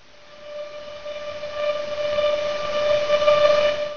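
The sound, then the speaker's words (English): Sonified radio emission from a millisecond pulsar with a 1.7-millisecond rotation period: a steady, buzzing drone of stacked harmonic tones that grows gradually louder. “It's when the accretion stops, it's when the overflowing material runs out somehow, that you start hearing the radio emission, and it sounds something like this.”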